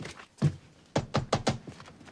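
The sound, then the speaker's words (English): Knocking on the back door of a house: one faint knock, then a quick run of four sharp raps. “Heading round the house, he knocks on the back door.”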